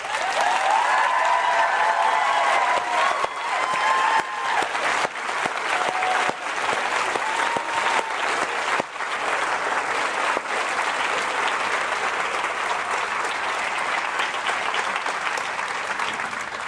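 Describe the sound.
Audience applause welcoming author Diana Gabaldon at the Edinburgh International Book Festival: a dense, steady wash of many hands clapping that holds at full strength for the whole stretch, with no talk over it.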